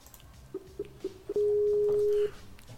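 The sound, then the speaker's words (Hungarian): Skype call being dialed: four short, evenly spaced electronic beeps at a steady mid pitch, then one long sustained tone at the same pitch before it cuts off, over faint background noise. “tárcsázom is őt. Skype kapcsolatom keresztül.”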